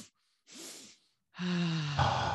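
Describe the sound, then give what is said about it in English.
Breathing in a relaxation breathwork exercise, two inhales through the nose and an exhale through the mouth. The breaths are soft and separate, and the last one is longer with a breathy, sighing, slightly voiced quality. “So in through the nose twice, out through the mouth.”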